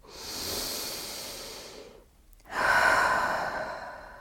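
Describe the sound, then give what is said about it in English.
Deep breathing during a guided breathing exercise: two long, airy breath sounds separated by a short pause, the second louder and more hissing, with no talking. “So take a breath with me.”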